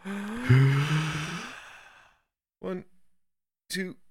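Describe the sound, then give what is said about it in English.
A voiced, sigh-like slow exhale from a breathing exercise starts loud and fades over about two seconds. After a pause come two short vocal sounds. “It's going to go big inhale. Hold for 3 seconds. Slow exhale.”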